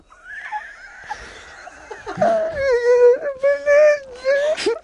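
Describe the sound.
A person fakes crying, voicing wavering whimpers and wails that rise and fall in pitch. The sound grows louder in the second half with a long, sustained moaning note.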